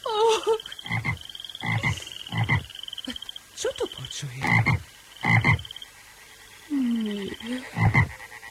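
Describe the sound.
A chorus of frogs croaks in loud, repeated bursts of rasping calls spread across the stretch. A voice speaks briefly among them.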